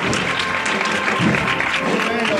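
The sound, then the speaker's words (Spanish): Crowd applause fills a street during a Holy Monday procession in Seville. The clapping is dense and continuous, with voices talking over it throughout. “El aplauso en la calle Verónica.”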